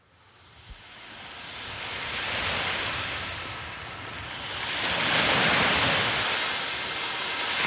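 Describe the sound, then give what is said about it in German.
Sea waves wash onto the shore in a broad roar that swells and recedes twice, rising to a louder second surge, with wind buffeting the microphone. “Hey, hört ihr das? Was? Na, das! Das Meer!”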